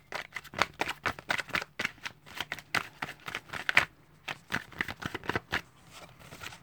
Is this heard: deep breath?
no